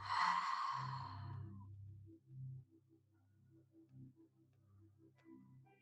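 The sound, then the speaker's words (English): A deep breath in and out during a guided breathing exercise: one long, soft, airy breath at the start, then near silence with a faint low drone. “Take a deep inhalation, exhale.”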